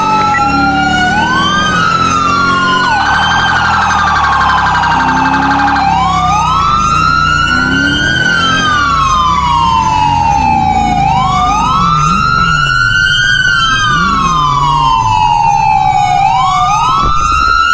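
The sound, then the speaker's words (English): A police car siren being tested wails loudly on its own, sweeping up and down in long repeated cycles, with a brief stretch of steady high tone partway through. “Oh, siren check.”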